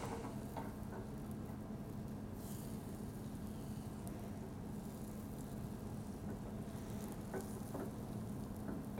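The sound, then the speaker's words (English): Steady, faint sizzling of egg frying in a pan as an omelet cooks, a continuous crackle with occasional soft scraping pops, no voices. “I can already start taking my egg that's cooking on the sides, pulling it towards the center. And you can see every time I do that, my raw egg fills in the crack.”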